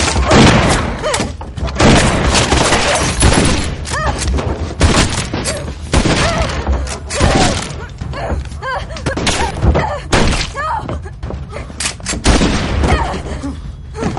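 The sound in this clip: Gunfire into a ceiling during a tense Western drama scene: loud, dense bangs and heavy thuds follow one another throughout, with sharp cracks landing irregularly over a constant rumbling roar.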